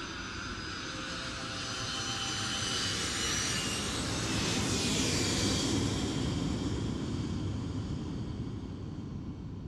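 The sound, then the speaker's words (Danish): An airplane lands at Kastrup Airport with a broad, continuous engine roar that builds to a peak mid-way and then eases slightly, with a faint whining edge high in the sound. “Da Robert lander i Kastrup Lufthavn i slutningen af januar 1997”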